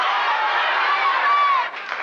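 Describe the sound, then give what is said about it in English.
A game show audience cheering and yelling at a contestant: a loud, continuous crowd roar of overlapping voices that dips briefly near the end before resuming. “And so the crowd's cheering and yelling and telling her.”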